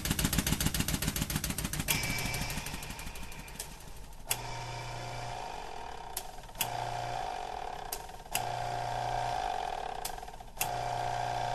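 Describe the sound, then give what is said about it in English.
Hydraulic oil pumps move large steel pistons in a high-pressure lab, giving a rapid rattling pulse at first, then a steady mechanical drone and hum broken by a few sharp clicks and abrupt shifts in tone. “The sounds you're hearing now come from hydraulic oil pumps that move large steel pistons that we use to pressurize our experiments.”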